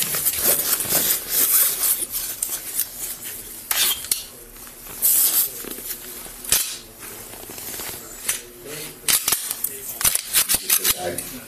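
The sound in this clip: A handgun found during a search by authorities is cleared and unloaded, with a few sharp metallic clacks, clicks and rubbing handling noises between stretches of people talking.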